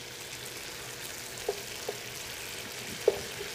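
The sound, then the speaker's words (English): Red onions sizzle softly in a pan as liquid cooks off, giving a faint, steady frying hiss broken by a few small pops. “The liquid is kind of burning off really fast, which is good. We need that. But what's staying behind is all the great flavor, right? The onions are here. They're doing their job. I like red onions in this.”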